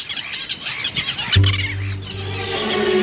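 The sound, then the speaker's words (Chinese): A Saunders's gull mother and her two chicks call in warm sunshine, giving a few high, thin squeaks and chirps over a rough, noisy background. “和煦的阳光下，一只黑嘴鸥母亲正带着2个孩子玩耍。”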